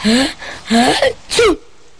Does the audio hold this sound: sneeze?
yes